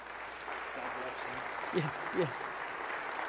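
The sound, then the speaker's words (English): Soft applause from a church audience welcoming a pastor who has come to present the gospel, a low steady patter with a voice speaking briefly above it. “if you can put your hands together and give Pastor Doug a warm SCC welcome as he comes this morning to present the gospel”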